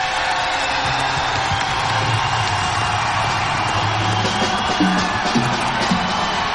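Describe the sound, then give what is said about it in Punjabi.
A crowd at a Punjabi live music show claps and cheers for their own villages, a loud, steady, unbroken roar of applause with scattered whoops and shouts throughout. “ਇਹ ਤਾਂ ਤਾੜੀ ਹੋ ਗਈ ਗਾਣੇ ਲਈ ਇੱਕ ਆਪਣੇ ਆਪਣੇ ਪਿੰਡ ਲਈ ਵੀ ਤਾੜੀ ਮਾਰ ਲਓ”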